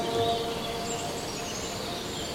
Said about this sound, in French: l'orchestre des oiseaux. Est au premier plan.